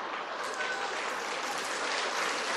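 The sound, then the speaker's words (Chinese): An audience claps at a Cantonese comic storytelling act, a dense, steady stream of many hands at moderate level that runs unbroken for nearly three seconds without speech. “你啲笑声同掌声系搞清楚先，系俾个肥佬定俾呢个肥师傅？”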